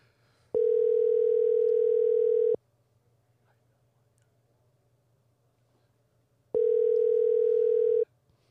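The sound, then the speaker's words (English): A phone dialing through a voice assistant gives out two long, steady mid-pitched tones, each lasting a second or two, separated by a silent gap with no talking. “Siri doesn't want to talk. No, Siri can't dial and talk.”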